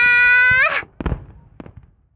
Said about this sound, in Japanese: 何？今の大きい音。 あれは花火だぜ。